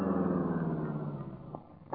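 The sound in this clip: A car engine idles with a steady low rumble that stays even throughout, ending in a brief louder burst of noise, with no voices.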